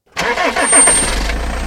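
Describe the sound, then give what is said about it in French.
A van fitted with loudspeakers drives through town, its mid-pitched engine starting up abruptly and then running in a steady, loud rumble. “À Saint-Dié, une camionnette avec des haut-parleurs sillonne la ville.”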